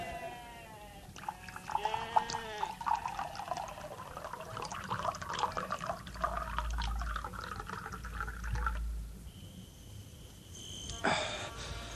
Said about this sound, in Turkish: Ben şu su tulumunu doldurayım, size yetişirim Yemliha.